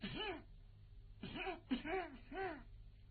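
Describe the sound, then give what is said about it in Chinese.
A voice imitates deliberate coughing: four short, voiced, ahem-like coughs, the first on its own and the other three in quick succession, all fairly faint. “哈东珠就着急了，故意的咳嗽那么几声”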